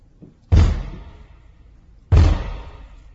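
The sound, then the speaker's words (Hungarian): A gate being opened: two loud, heavy bangs about one and a half seconds apart, each a sharp impact with a fading rumble, the first preceded by a faint soft knock. “Hogy kinyitjuk, brumma, brumma. Kulcsal? Mancsal.”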